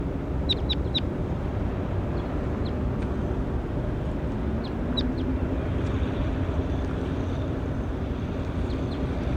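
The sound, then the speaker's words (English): Short, high chirps from a bird, a few quick ones near the start and more scattered later, faint above a constant loud rushing noise. “Recording bird 20 again.”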